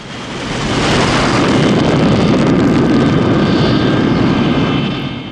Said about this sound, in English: The plane takes off with John hanging on for dear life beneath it.